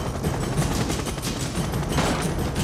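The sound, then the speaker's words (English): Sustained gunfire in an action scene where weapons are fired near thermonuclear warheads: a dense, continuous burst of rapid shots that stays loud and steady throughout, with no voices. “Would you mind not shooting at the thermonuclear weapons?”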